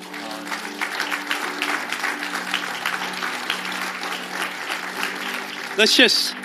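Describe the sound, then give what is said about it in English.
An audience applauds its pastor during a church service. The clapping is continuous and fairly loud, with voices mixed in underneath. “Let's just let Pastor Colin, you know, let's do that again, and let's give him the round of applause that he deserves to let him know how much we appreciate him.”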